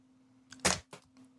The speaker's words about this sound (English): Did you just throw your pen? Threw my pen. Don't throw your pen.